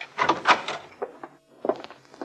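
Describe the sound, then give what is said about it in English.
A hotel room door is unlocked and opened: a few clunks and rattles of the latch and door, a brief pause, then more knocks and bumps at moderate loudness. “Well, if there is, they're not coming to the door, not if he sneaked them into the hotel. I suppose you're right. Guess I'd better unlock it.”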